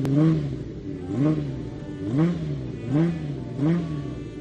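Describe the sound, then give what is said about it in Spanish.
A Ferrari car engine revs in rhythmic swells, its throaty pitch climbing and falling about five times in a steady cycle, loud and alone with no voices. “Estás oyendo el sonido de un motor Ferrari, una gran marca al alcance de muy pocos”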